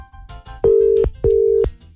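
Two steady tones of a ringing telephone line sound as a Greek morning radio show phones a listener. Each tone lasts under half a second, separated by a short gap, with no talk.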